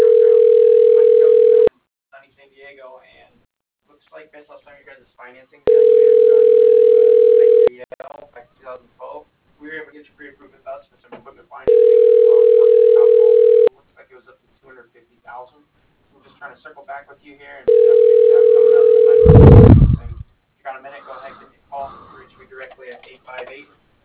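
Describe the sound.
Long, steady ringback tones sound on a ShoreTel office telephone line as a call is put through. Four rings of about two seconds each are separated by pauses with faint voices, and a sharp burst cuts off the last ring.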